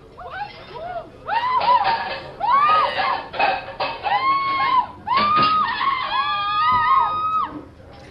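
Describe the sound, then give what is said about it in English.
A man screams from a kitchen in a run of loud, strained vocal cries with wavering pitch. Several long wails follow one another closely. “that scream you just heard came from the kitchen.”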